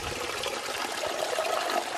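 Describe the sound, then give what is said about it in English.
Tap water pours steadily into buckets being filled, a continuous rushing, splashing flow that stays even and fairly faint throughout, with no voices. “is filling up several buckets of water and loading them into the back of her car.”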